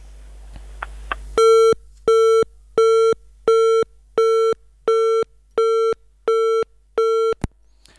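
A telephone busy signal sounds as a call fails to connect. A long run of loud, evenly spaced, mid-pitched beeps plays alone, each separated by a short silence.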